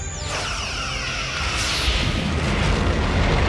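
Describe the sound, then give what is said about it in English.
Explosion of an alien attack ship hit by phaser fire in Star Trek: a loud whooshing sweep opens into a dense, sustained roar that stays heavy and rumbling throughout. “Worf tags him with a little phaser fire.”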